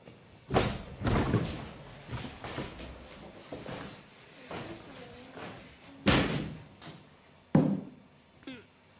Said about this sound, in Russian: Откройте, пожалуйста, поскорее шкаф, и все будет в порядке.